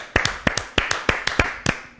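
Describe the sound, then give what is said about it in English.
Audience clapping at a prize-giving for a cooler contest: many sharp, loud claps in a quick, fairly steady rhythm, sparse and distinct rather than a dense roar. “So let's give them a round of applause.”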